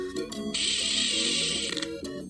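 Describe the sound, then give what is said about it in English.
An arcade machine starting up in a video game gives a bright, noisy mechanical whir of about a second over sustained electronic tones, then settles back to the tones. “Alright, okay, I guess the last thing left for me to do is check out this arcade machine, see what it does.”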